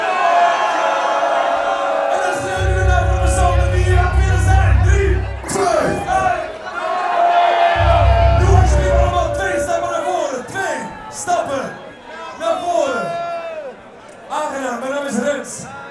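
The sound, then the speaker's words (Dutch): A festival crowd loudly yelling names after a countdown, with many overlapping voices shouting and whooping, and two bursts of deep booming bass underneath. “We tellen af. 3, 2, 1. Dan schreeuw je de naam. Luid, hè? Van de persoon met wie je hier vandaag gekomen bent.”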